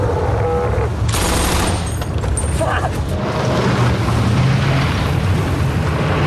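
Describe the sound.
Machine-gun fire during a military engagement: a dense, unbroken roar of shots with a sharp, bright burst early on. It stays loud throughout.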